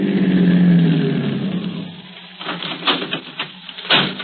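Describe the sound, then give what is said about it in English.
A car engine drones as the car peels off to the left on a highway: a loud, steady low rumble for about two seconds that then eases off, followed by a few sharp, clattering taps. “I'll just peel off to the left and let him have the highway to himself.”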